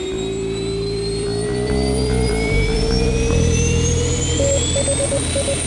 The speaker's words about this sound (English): ignition sequence start. 6, 5, 4, 3, 2, 1, 0. All engine running.